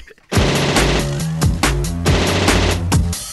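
Machine gun fire sound effect: a loud, sudden burst of rattling gunfire that keeps going with repeated sharp blasts over a tonal, music-like background.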